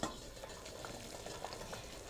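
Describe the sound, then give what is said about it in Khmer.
Water boiling in a pot on a lit stove while soup is being made, a steady bubbling hiss with soft popping that continues evenly throughout. “ឃើញថាវាពុះហើយ”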